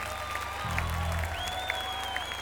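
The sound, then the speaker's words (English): Audience applause for a performer: dense, even clapping fills the whole stretch, with brief faint whistle-like tones above it. “ladies and gentlemen, how about a hand for Mr. Paul Mahoney?”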